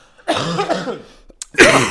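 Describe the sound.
A person coughing in a few harsh, raspy bursts: one loud cluster, a tiny catch, then another strong cough, all loud and without talk.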